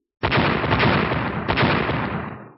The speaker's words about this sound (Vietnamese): Hàng loạt những tiếng nổ liên tiếp vang lên